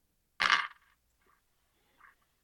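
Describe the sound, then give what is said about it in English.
A quarter is flipped, giving one sharp metallic ping followed by two faint small taps against near silence. “I'm flipping a quarter here.”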